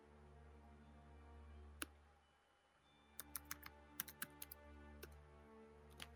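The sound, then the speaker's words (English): Typing on a computer keyboard: a lone key click, then a pause, then clusters of quick, crisp keystrokes at an uneven rhythm, fairly faint over a low steady hum. “It's just typing something, don't worry.”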